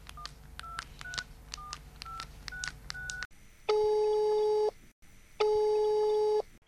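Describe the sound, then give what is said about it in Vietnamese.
Telephone dialing to connect a call to Hà Tĩnh province: a rapid run of keypad tones, then two long, steady, buzzing ring tones separated by a short pause. “chương trình sẽ kết nối điện thoại tới tỉnh Hà Tĩnh để gặp gỡ một nhạc sĩ”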